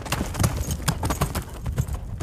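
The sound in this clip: Hooves of a walking horse clip-clop in a steady, unhurried rhythm of many moderate beats.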